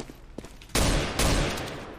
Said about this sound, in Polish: Te stuki to jest taki lipny granat do straszenia.